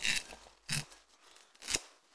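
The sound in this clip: A foil-sealed bottle of Aerstone Sea Cask scotch whisky is opened, with three crisp, scratchy tearing bursts separated by quieter rustling.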